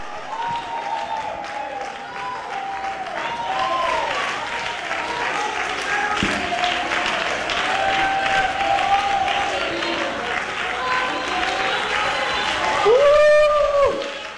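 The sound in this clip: Applause and crowd noise from a church audience, offered as praise during a sermon, runs steadily for the whole stretch, with a voice rising over it and a brief louder swell near the end.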